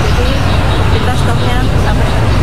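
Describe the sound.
Road traffic from vehicles queuing for diesel at a fuel station in Jombang, a loud, continuous low rumble of engines with people talking over it.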